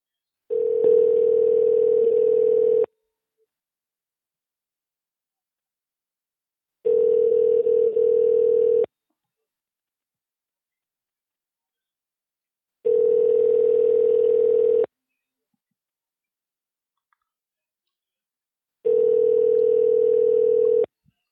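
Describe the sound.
A telephone ringback tone plays while a call is being placed. Four identical steady buzzing beeps, each about two seconds long, are separated by roughly four-second silences in an even, repeating pattern.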